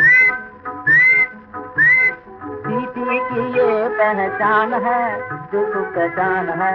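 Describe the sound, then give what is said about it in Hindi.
Whistling opens with three short, bright whistled phrases in quick succession, then gives way to a dense, sustained tonal musical bed that runs steadily to the end. “धीरे धीरे सीटी बजाऊंगा, मेरी सीटी की ये पहचान है”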